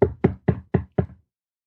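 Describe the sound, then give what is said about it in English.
Knocking on a door: five firm, evenly spaced knocks in a quick steady rhythm, sharp and clear, followed by silence. “crap, somebody knocks on your door.”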